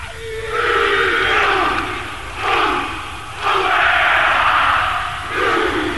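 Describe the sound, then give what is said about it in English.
Traditional Maori warrior greeting at a stadium welcome ceremony, a massed group of voices chanting and shouting loudly in forceful, rhythmic phrases, with several surging bursts separated by brief dips. “Inside the stadium, there was a traditional Maori welcome. First, the ceremonial rubbing of noses, a hongi, followed by a full warrior greeting.”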